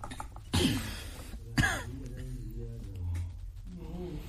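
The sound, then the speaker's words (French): A man clears his throat in two rough, harsh bursts about a second apart, followed by quieter muffled sounds. “Ton frère est en train de racler sa gorge.”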